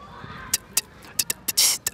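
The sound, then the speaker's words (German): A beatboxer imitates a hi-hat with the mouth: a few short, crisp, high ticks and hisses in an irregular pattern, one drawn out into a longer sizzle near the end, heard alone. “Dann gibt es einmal die Hi-Hat”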